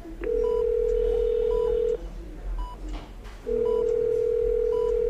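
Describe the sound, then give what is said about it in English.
Telephone sounds as a call is placed: a steady low tone plays, cuts out for about a second and a half, then resumes, with short higher beeps recurring at intervals. “we're just going to give Mikey a call”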